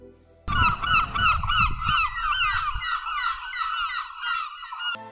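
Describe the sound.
A flock of egrets calling as they arrive: dense, overlapping honking cries that run steadily and loudly for several seconds, with a low rumble underneath at the start.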